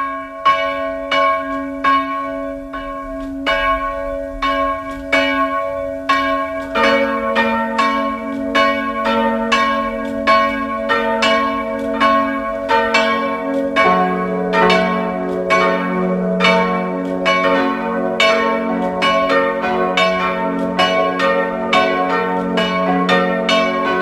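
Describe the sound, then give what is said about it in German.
Protestant parish church bells ring at noon in Burgenland, Austria, near the Hungarian border. Many loud, resonant strikes overlap in a steady rolling rhythm, and the mix of bell tones shifts as the peal continues without voices. “Es ist 12 Uhr. Sie hören die Glocken der evangelischen Pfarrkirche von Lutzmannsburg im Burgenland.”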